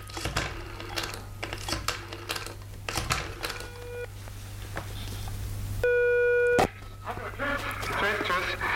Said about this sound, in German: Ich werde mal anrufen.